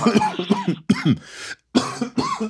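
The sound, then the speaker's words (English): A sick person coughs harshly in three clustered bouts, each made of several rough, throaty hacks, with brief silent pauses between the bouts. “Because we can't be both coughing like that.”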